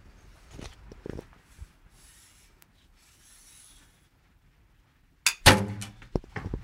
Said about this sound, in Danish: vil du ikke prøve at fyre en mere afsted? Så kan jeg prøve at se, at hun står med en ekstrem avanceret bue. Der er sigtekorn og alt muligt på.